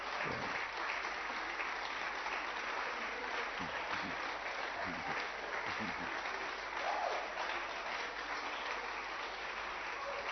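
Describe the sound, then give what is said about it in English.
Sustained audience applause at a worship gathering as the crowd claps for Jesus. It forms a dense, even wash that stays loud and steady for the whole stretch with no breaks, and no one speaks over it. “Applaudissez plus fort,”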